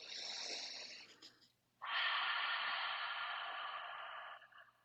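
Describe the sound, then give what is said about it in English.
A clearing breath for a children's breathing exercise: a soft inhale through the nose, a brief pause, then a longer, louder sighing exhale through the mouth. “we'll start with just a regular clearing breath in through nose, out through mouth with a sigh”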